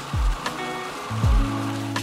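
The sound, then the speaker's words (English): A food processor grinds a sprinkle-on, cinnamon-scented filling for malted milk chocolate rugelach, making a loud, steady whirring roar with a constant motor hum and two brief pitch drops. “So this is the filling that's gonna be sprinkled on versus smearing on in melted form. I just find that it's a bit easier to work with, a bit cleaner, and we have the food processor here, so might as well use it.”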